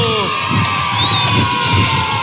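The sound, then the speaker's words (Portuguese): Loud, continuous cheering and shouting from a crowd, including children's voices, celebrating the participants and winners of a guessing game. “E palmas para todo mundo que participou e para quem acertou.”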